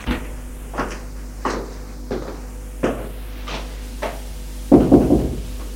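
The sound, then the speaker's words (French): Knocking on a bedroom door at night: a steady series of spaced, moderately loud raps, finishing with a louder, quicker cluster of knocks. “une fois que tout le monde est couché, Nicolas va frapper à la chambre de Denis.”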